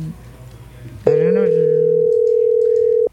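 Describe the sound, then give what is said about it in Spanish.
A telephone line tone while a call is being placed: a loud, steady, unbroken hum that lasts about two seconds before cutting off. A voice briefly overlaps its start, and low murmuring comes before it. “Dice así. A ver, ahí se fue. Adriana. Estamos llamando a Adriana.”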